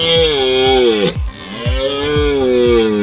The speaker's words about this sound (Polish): Tym pierwszym głosem, który słyszymy podczas rykowiska, to jest głos byka organisty, który rozpoczyna rykowisko.